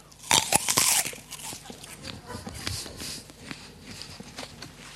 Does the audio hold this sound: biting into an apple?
yes